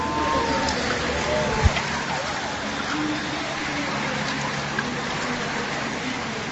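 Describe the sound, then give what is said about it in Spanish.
Tour de France peloton of bicycles sweeping past a commentary booth, a dense, steady whirring hiss of many spoked wheels, gears and sprockets, with a couple of brief sharp clicks. “Mira cómo suena el paso del pelotón del Tour de Francia por delante de la cabina de transmisiones de COPE.”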